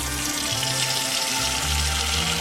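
Steady rushing water as a few noodles are put into cold water instead of being boiled, a continuous fairly loud wash with a low hum underneath and no voices.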